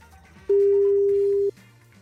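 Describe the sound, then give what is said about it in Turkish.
Telephone ringback tone as a radio station calls a listener who won a prize draw: a single steady, mid-pitched tone lasts about one second over a faint, low background. “Şimdi onu arayacağız. Bakalım telefonuna bakacak mı ve radyoyu kazanacak mı? Hemen arıyoruz.”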